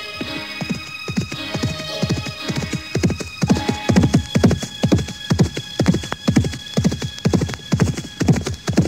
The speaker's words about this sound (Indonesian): Mereka semuanya berpacu dengan kuda menuju Karang Sedana.